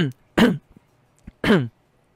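Throat clearing from someone with phlegm in the throat: two strong, rasping bursts, each about a quarter-second long, with a few faint short throaty sounds between them and no speech.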